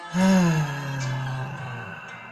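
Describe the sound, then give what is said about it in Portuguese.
A voiced sigh of breath released through the mouth during a relaxation breathing exercise. It starts strong and low, then trails off into a softer, airy exhale over about two seconds. “Inspira pelo nariz. Solta pela boca.”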